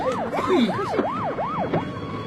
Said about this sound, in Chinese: 哎呀，好了，警察来了，警察来了！